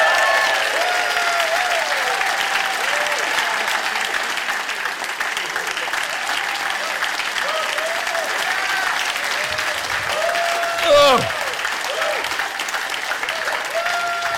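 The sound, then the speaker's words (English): Sustained, loud applause from a live audience welcoming Peter Mandelson onto the stage at a live show. It holds steady and dense for the whole stretch with no clear break. “Please give a rousing political party welcome to one of the greatest brains in the history of British politics, Peter Mandelson!”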